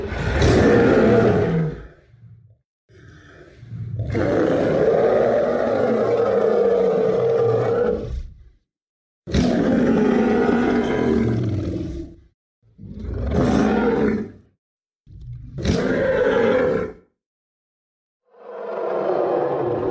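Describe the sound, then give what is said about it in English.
Roar of an artificially created yeti at a theme park attraction, designed to pass as a real animal: a series of about six loud, rough, sustained roars and growls, the longest lasting several seconds, separated by short silences. “sound engineers needed to create a sound for the Yeti, one that would make guests fear for the creature and believe it was a real animal sound. The result, as you'll hear in a second, I believe, is very convincing.”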